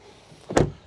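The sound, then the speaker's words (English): The door of a GMC Sierra EV Elevation electric pickup truck closes with one short, soft thump, alone against faint background hiss. “So let me just close the door here.”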